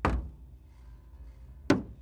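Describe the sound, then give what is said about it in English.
Two dull, low knocks on a living room window, separated by a long, quiet pause. The first knock is a soft thud and the second is sharper. “a low knock, knock, knock got his attention. It came from that living room window.”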